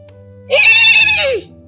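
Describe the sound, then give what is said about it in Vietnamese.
A frightened horse gives one loud, shrill whinny lasting about a second, its pitch sliding downward at the end, over a low steady hum that continues after the call. “Thất ngựa lúc này kêu vang lên sợ hãi”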